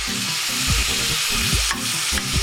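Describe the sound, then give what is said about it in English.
Meat and onions sizzle as they sauté in a pan, a loud steady frying hiss with a utensil scraping and stirring through it and no talk. “After a few minutes of sauteing the meat and the onions, I'm ready to add my beans.”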